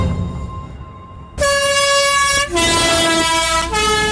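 Horn of a historic postal bus on a Sunday run between Langnau, Biglen and the Moosegg: loud, sustained multi-tone chords that change pitch three times in a row, after a fainter tone, over a low engine rumble.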